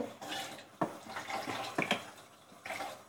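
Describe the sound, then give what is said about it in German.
A brush is rinsed by hand under running water, making a faint, steady splashing hiss broken by a few sharper knocks and spatters. “Spüle den mal kurz mit Hand ab.”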